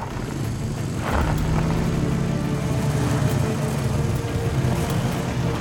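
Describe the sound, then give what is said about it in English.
Engine rumble of soldiers' carts driving at night with headlights on and turning a corner, a steady low motor drone that holds an even loudness from start to finish. “The cart's headlights shine. They turn a corner.”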